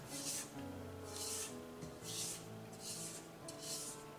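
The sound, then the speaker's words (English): Scraping down the sides of a mixing bowl of cookie cake batter: a few soft, rhythmic rasping strokes, evenly spaced and faint, over a low steady tonal background. “Alright, once we stop that, we're going to want to scrape down the sides of the bowl just to make sure that everything gets thoroughly combined.”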